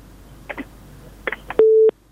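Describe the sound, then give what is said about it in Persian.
Telephone busy tone after a dropped call: a few soft clicks, then a single steady beep lasting about a third of a second. “یو بل اوریدون که راخلو دیده تماس قطع شوه ده”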